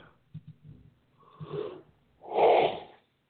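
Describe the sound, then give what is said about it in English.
A drawn-out, loud yawn with a breathy, groaning voiced quality, swelling and then fading near the end. It is preceded by a few short, low sounds and a briefer breathy murmur. “I can't even say five words without yawning.”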